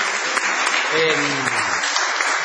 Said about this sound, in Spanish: Vamos a extender el aplauso inicial saludando a Patricio Barton.